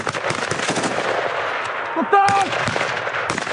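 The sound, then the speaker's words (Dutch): Gunfire during military combat gunner training, many sharp rapid shots in dense bursts, loud and continuous across the whole stretch. “De training van de gevechtsschutter, daar hoort natuurlijk geknal bij.”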